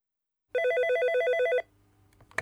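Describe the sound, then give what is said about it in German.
An electronic telephone ring sounds as one loud burst of rapid, warbling trills lasting about a second, then cuts off into near silence. “Sadko ruft Hendrik an.”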